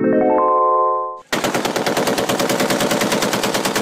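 Rapid automatic gunfire erupts after a short fading tonal sound, many shots cracking in a fast, loud, sustained rhythm until the end.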